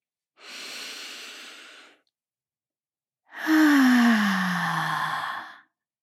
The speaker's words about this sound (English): Are you ready? Let's breathe.